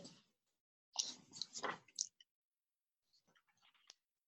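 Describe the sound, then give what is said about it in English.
Papers lifted carefully to avoid rustling give off faint, soft crinkles and light clicks in a few brief clusters, separated by quiet. “trying very carefully to lift my papers up so there isn't a lot of paper rustling.”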